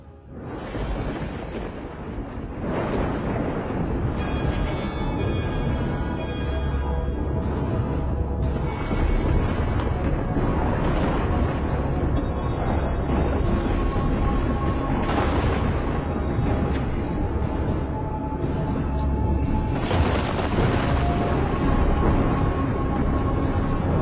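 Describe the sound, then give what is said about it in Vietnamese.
Earth-shaking explosions of lightning bolts striking, heard as a loud, continuous thunderous rumble with a few booming surges rising out of the roar. “Tiếng nổ kinh thiên động địa vang lên.”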